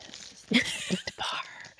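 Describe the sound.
A plastic Perfect Bar snack bar wrapper is crinkled in a few irregular bursts of crisp rustling. The faint crackles come and go with short quiet gaps between them.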